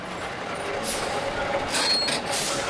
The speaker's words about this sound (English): State inspectors flag down big rigs near the ports.